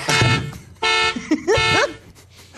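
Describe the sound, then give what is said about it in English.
A car alarm goes off in loud, harmonic electronic tone blasts, a few cycling bursts, the later ones warbling up and down in pitch, with short gaps between them. “Someone's car alarm is going off, and I'm pissed about it.”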